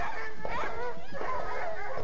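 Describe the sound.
Dogs bark and yip in a quick, high-pitched series mixed with whimpering, moderately loud over steady background noise.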